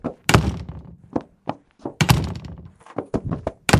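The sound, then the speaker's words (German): Old doors with unoiled hinges are slammed shut one after another, giving many sharp thuds and knocks of varying loudness. The bangs follow in an uneven, rapid series with a few heavier impacts among them. “Oftmals rennt er von Tür zu Tür, knallt sie der Reihe nach zu,”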